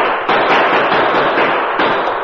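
Gunshots fired at a stagecoach by moonlight in an old Western radio drama: a loud, dense blast of gunfire that runs as continuous crackling noise, with sharper bangs breaking in near the start and again toward the end.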